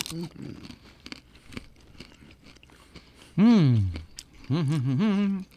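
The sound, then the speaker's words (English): Someone crunches a chocolate-covered pretzel, a run of many sharp, brittle crackles and chews, followed by two drawn-out vocal exclamations of enjoyment. “I'm going to go to the chocolate-covered pretzel.”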